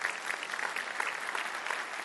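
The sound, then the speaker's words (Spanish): An audience applauding in church: a steady, fairly faint, even patter of many hands clapping together, with no single voice standing out. “Un aplauso al Señor que se lo merece, amén.”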